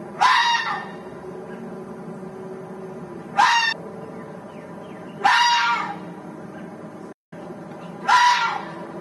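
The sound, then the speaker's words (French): A fox gives four long, high-pitched yelping calls, each a sharp rising cry that trails off, separated by gaps of a couple of seconds with low steady background noise between. “On dirait un animal qui appelle à l'aide. C'est le cri du renard. Il est long et aigu. On dit qu'il glapit ou qu'il jappe.”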